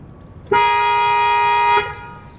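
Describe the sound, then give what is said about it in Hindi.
A car horn blares in a single long, steady honk held for over a second while it is being tested, loud against faint background noise. “Horn क्यों बजा रहे हो? मैं गाड़ी का horn check कर रहा था।”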